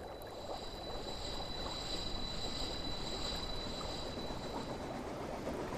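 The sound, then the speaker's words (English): A generator runs with a steady, dense rumbling roar and a thin high whine above it, holding level for the whole clip with no voices. “Prepare the generator.”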